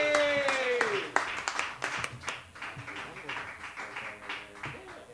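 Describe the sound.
An audience at a comedy show applauds as a comedian comes to the stage, with dense, steady clapping that thins toward the end. A voice speaks over the start.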